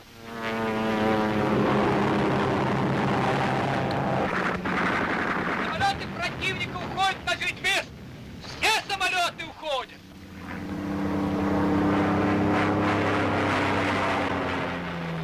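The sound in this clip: Loud, steady drone of German propeller aircraft in flight, a large formation of many planes, with a layered engine hum that thins mid-clip as choppy bursts cut in, then swells back to a full roar.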